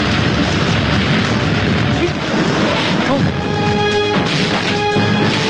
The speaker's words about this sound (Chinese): 要爆炸！快跑！